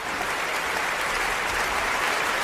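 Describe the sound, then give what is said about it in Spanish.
Dense, even applause from an audience clapping to imitate rain, forming a steady hiss-like patter with no separate claps standing out, constant in loudness throughout. “Aplauso de lluvia. Aplauso lluvia.”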